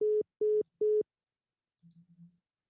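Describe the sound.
A telephone busy tone sounds after the caller hangs up: three loud, even beeps in a steady rhythm. Silence follows, then a few faint, low pulsing tones.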